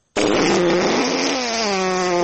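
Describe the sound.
Air escaping through the hole of a bladder placed under a chair as a man sits on it. One long, loud, buzzy, flatulent blast starts abruptly and lasts about two seconds, its pitch sinking slightly partway through.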